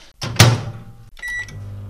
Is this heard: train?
no